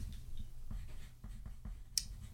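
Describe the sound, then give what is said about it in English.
Handwriting as a note is jotted down, heard as several faint scratchy pen strokes at an irregular rhythm over a low, steady rumble. “I'm going to write that down.”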